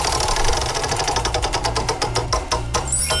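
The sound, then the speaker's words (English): A game show prize wheel spinning, with many rapid ratcheting clicks over a low hum that spread farther apart as the wheel slows. “Are you going to spin the wheel for us? Let's spin the wheel.”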